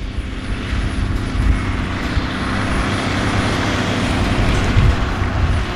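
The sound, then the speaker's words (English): A blue landfill compactor with spiked wheels works the trash at the landfill's working face, its engine giving a loud, steady, continuous drone with a low rumble and no talk over it. “Every piece of trash that can't be repurposed is taken to the working face of the campus and crushed below the compactor's medieval-like tires.”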